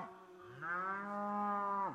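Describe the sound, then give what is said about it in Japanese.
A cow from a herd of five hundred cattle gives one long, harmonic moo. It swells in loudness partway through, holds steady, then drops in pitch as it ends. “たくさんの牛です。みんなで500頭もいます。”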